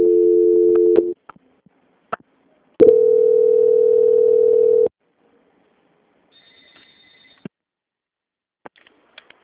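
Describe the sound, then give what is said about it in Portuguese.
Telephone line tones sound during a call transfer: a steady tone for about a second, a click, then a longer steady tone of about two seconds, followed by a faint higher signal and scattered clicks. No voices are heard. “Que eu vou estar transferindo novamente, tá? Ligação para o controle de qualidade, tá? Só um instante. Tá bom. Transferência.”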